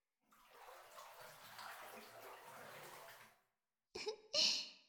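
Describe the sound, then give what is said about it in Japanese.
Bath water sloshing and splashing for about three seconds as someone washes and settles back into the tub, followed after a pause by two short breathy throat sounds. “それじゃあ体洗ってもう一回お風呂に浸かろうか。”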